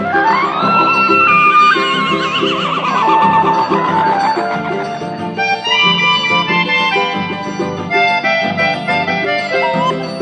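A horse's whinny mixed into lively rural country music, with a wavering call that falls in pitch near the start. Dense instruments and vocals run throughout.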